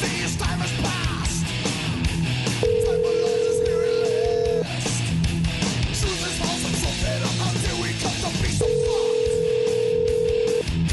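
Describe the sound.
Telephone ringback tone plays while a call back is placed: two long, steady, mid-pitched ring tones, each lasting about two seconds and separated by a pause, sound over a dense, busy backdrop.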